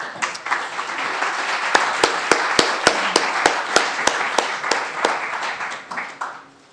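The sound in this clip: Audience applause welcomes a speaker to a church talk: a continuous wash of clapping punctuated by many sharp, loud individual claps, holding steady before thinning out at the end.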